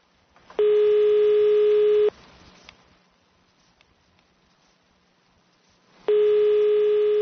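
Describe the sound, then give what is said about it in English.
A telephone line beeping: a loud, steady electronic tone about one and a half seconds long, then a few seconds of near silence with faint noise, then the same tone starting again and running to the end. “Why is it beeping like that?”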